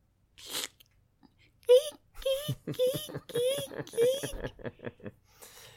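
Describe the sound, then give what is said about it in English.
A voice imitates screwing with a small IKEA wrench: about five short, squeaky, creaking vocal bursts in a steady rhythm, with breathy sounds before and after. “I have the advantage of seeing the mime that goes with it, but that's screwing. It's using the little IKEA wrench.”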